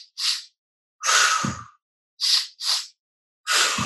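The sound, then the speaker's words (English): Big inhales in through the nose during a guided breathing exercise. There are five separate airy, hissing breath bursts, some short and sniff-like and others longer and fuller, with silence between them. “And a big inhale twice in through your nose.”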